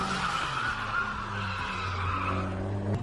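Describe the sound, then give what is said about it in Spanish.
A car skidding with no tyres, its bare wheel rim scraping along asphalt and throwing sparks, making a continuous loud grinding screech with a steady tonal whine throughout. “Uno de los momentos más impactantes muestra a un coche derrapando sin neumáticos, con la llanta rozando el asfalto y provocando chispas.”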